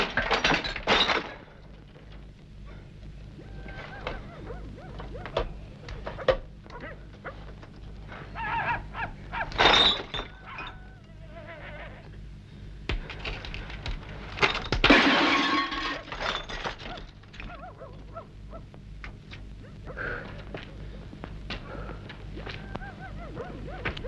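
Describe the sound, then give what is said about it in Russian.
A glass door is smashed, with loud shattering crashes that break out several times over a rumbling background. Smaller cracks and clicks are scattered between the main bursts. “Мазарин разбивает стеклянную дверь.”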